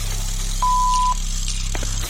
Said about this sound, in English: someone is available to take your call. Please leave a message after the tone.